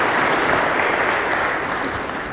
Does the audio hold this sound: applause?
yes